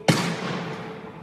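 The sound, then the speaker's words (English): A single loud gunshot, the second shot fired during a struggle, cracking sharply and then fading in a long tail. “The first shot actually strikes Ahmaud in the chest. There's a struggle. A second shot.”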